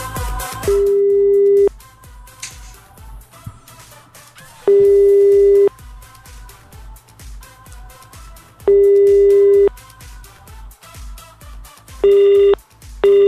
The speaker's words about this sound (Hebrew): טוב, החבר'ה נרשמים ולא עונים את הטלפון